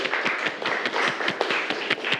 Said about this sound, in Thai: ถูกต้องนะครับปรบมือเพื่อนเลยนะครับนักเรียน